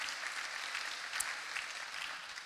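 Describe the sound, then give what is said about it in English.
An audience applauds with a steady, faint patter of many hands clapping, lasting a couple of seconds. “You guys can clap it up.”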